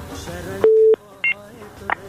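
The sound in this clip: Telephone dialing tones sound as a call is connected: three electronic beeps, the first one longest and the later two short. All of them are heard under a man talking.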